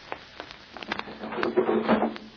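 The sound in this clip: A window is opened in a radio drama sound effect. A few light wooden knocks lead into a soft, scraping slide that grows slightly louder toward the end.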